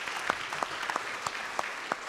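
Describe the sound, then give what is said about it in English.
An audience claps hands at an anniversary gathering for a bus boycott: faint, sparse, fairly regular claps over a steady crowd murmur. “Let's give yourselves a hand clap for being here tonight.”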